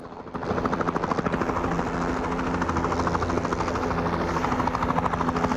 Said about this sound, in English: A helicopter flies down towards the hangar.